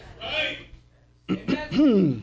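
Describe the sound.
Throat clearing and coughing from a speaker during a church service: a rough burst, a pause, then a few short harsh bursts ending in a drawn-out voiced rasp.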